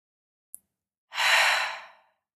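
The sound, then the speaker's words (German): A single long, deep breath, sounding like a sigh, taken during a guided relaxation breathing exercise of breathing in through the nose and out through the mouth. It swells and fades over about a second, preceded by a faint click, with no talking. “Und nimm zu Beginn 3 tiefe Atemzüge. Atme dabei ein durch die Nase und aus durch den Mund.”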